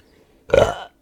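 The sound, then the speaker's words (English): A single loud burp after eating oatmeal, rising abruptly, holding briefly and fading within half a second, heard alone with no talking. “I also just ate oatmeal, so if I burp during this episode,”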